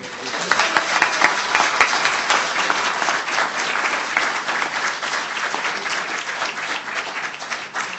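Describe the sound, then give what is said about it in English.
An audience applauds to welcome a speaker at an evening gathering, a warm, dense, sustained clapping that holds steady for several seconds and eases slightly near the end. “But please do give him a warm welcome to the filling station.”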